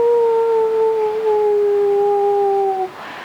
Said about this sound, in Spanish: cuando comenzaban a aullar los perros, hacían ¡au!